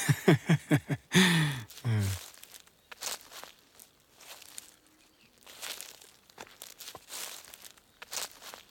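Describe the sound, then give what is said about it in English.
Footsteps of two people walking side by side away from a farm's main plot: a steady series of soft, crunching steps with an irregular rhythm, moderately loud and with no talk over them. “Walking side by side with you away from the farm's main plot, your shoulder brushes against mine.”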